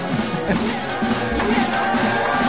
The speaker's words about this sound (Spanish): Y se viene abajo la casa. Sí, aplausos.